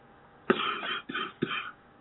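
Three heavy, harsh coughs with no talk: the first is the loudest and drawn out with a rasping tail, and two shorter coughs follow in close succession.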